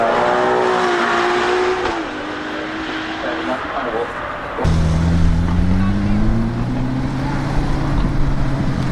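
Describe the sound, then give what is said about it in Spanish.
A Ferrari sports car engine drones with a steady, harmonic tone. Its pitch shifts partway through, then a louder, deeper note takes over and climbs gradually toward the end. “y ahora vamos a cambiar de motor un poco de forma radical de ese sonido de este Ferrari hermoso”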